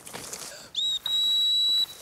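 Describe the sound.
Two high-pitched whistle blasts recalling a hunting dog that is flushing small game in the field: a brief first blast, then a longer steady one held for nearly a second, over faint outdoor background noise.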